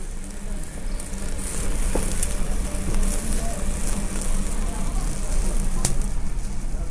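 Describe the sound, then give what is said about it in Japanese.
Beef cuts including tongue, sirloin and round sizzle on a grill, a dense, continuous hiss broken by a few sharp pops, steady and fairly loud throughout. “さあ、お肉が焼けちゃいました。聞こえますか、この音？ うまそう。 さあ、今焼いてるのはタンと”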